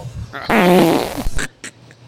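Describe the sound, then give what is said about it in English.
A loud, buzzy fart sound effect rasps for under a second, then breaks into a few short, wet sputters that trail off. “That's the sound of the air escaping from that sex doll after she's been on the courthouse lawn for a month. I hope flatulence charts well on Apple Podcasts.”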